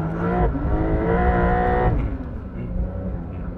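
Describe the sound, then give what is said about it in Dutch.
A race car engine bounces off its rev limiter while the electronics hold the gear: a loud, sustained buzzing engine note that steps in tone a couple of times before settling into a rougher, slightly quieter drone. “Want ik was niet handmatig aan het schakelen, maar ik bleef even zeg maar, in die toerenbegrenzer even hakken.”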